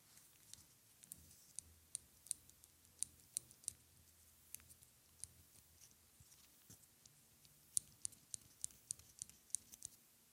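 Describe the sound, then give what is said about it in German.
A clothespin clicks many times in sharp, faint snaps at an irregular pace, with no voices over a quiet background. “Das war das Geräusch einer Wäscheklammer.”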